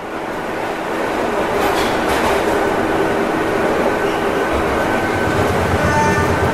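A crowded Mexico City subway train swaying along its tracks: a loud, steady rumbling roar with rattling wheel noise and faint clicks, continuous throughout.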